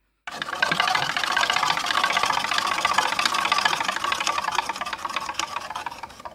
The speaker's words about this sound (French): Donc je te laisse, quand tu veux, on actionne la roue